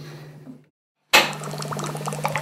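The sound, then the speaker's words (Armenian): Gurgling of a Gyumri klklan, or mushurba, a musical copper water jug that sounds as water is drunk from it; a faint opening, a moment of silence, then a sudden bright burst of bubbling, clinking water that carries on steadily to the end. “Գյումրիի կլկլանի կամ մուշուրբայի համբավը լսել են շատերը, մուշուրբայի երաժշտությամբ ջուր խմելու հնարավորությունն ունեցել քչերը։”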